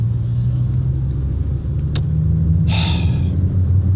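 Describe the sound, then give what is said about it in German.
A car drives along the A3 motorway in Germany with a steady, low engine and road rumble. A short hissing burst rises briefly partway through, and no one speaks. “ich fahre auf der A3, genau”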